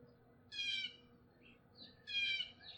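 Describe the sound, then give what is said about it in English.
A blue jay calls from the top of a maple near a feeder: two raspy, high-pitched calls with faint short notes between them, all quiet over a soft background hum. “That's blue jay language for fuck this guy. He's sitting up top of a maple, right near the feeder, kind of looking down at me.”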